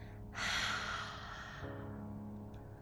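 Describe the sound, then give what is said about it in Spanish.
Long, deep exhale through an open mouth during guided breathing, a loud breathy rush that swells quickly, then fades out over a soft, steady tonal background. “Toma una inhalación profunda y ahora abre la boca y exhala por la boca.”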